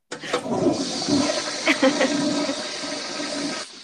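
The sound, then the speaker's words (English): A toilet flush sound effect plays from a soundboard button: a rush of swirling, gurgling water that surges at once, churns steadily for a few seconds, then tails off quickly. “when I'm looking at a sound effect button that says toilet flush, and I was like, when would I use that?”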